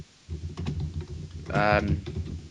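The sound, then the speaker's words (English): Computer keyboard typing as a search is entered into Google: a quick run of light keystrokes, with a brief voice partway through. “I'll type it in on Google.”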